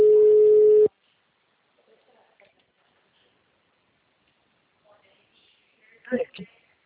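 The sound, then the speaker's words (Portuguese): A steady telephone tone sounds as a call is being dialed, holding one pitch for just under a second before cutting off. A long near-silent stretch follows, then a brief burst of a voice near the end. “Vou fazer uma ligação gravada.”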